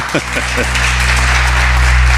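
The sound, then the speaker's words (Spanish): Studio applause swells after a short burst of voice at the opening, then settles into a steady, fairly loud wash of clapping over a strong low hum. “Bueno, es vallisoletano, pero yo creo que se ha ganado un aplauso.”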